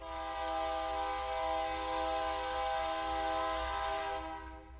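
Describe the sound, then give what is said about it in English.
A commuter train running between Albuquerque and Santa Fe, New Mexico, sounds one long, loud, rich horn blast lasting about four seconds over a low rumble of the train, then the horn cuts off. “That's our train that runs between central New Mexico, where Albuquerque is and where we live, north to Santa Fe, our state capital.”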